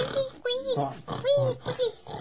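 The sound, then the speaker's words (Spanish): A voice imitates young pigs grunting while playing in a puddle. Several short, nasal oinks come in quick succession, each rising and falling in pitch, fairly faint. “¡Puercos guaguas! Sí, jugando en el charco. Un charco de agua, unos bonitos puercos eran.”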